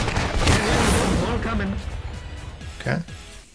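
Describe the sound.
Video game gunfire crackles in a few rapid bursts with sharp popping hits, mostly under a person talking over the action.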